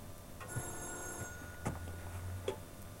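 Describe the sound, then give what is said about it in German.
A telephone rings faintly: a thin, high ringing tone early on, with a few soft clicks and knocks spread across the quiet background. “Ach, Jochens Telefon klingelt. Geh doch bitte mal hin, ja?”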